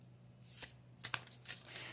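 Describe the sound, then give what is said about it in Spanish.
Playing cards being shuffled and split into three piles, heard as a few faint, crisp papery riffles in quick succession. “Voy a separar las cartas en tres, en tres mazos”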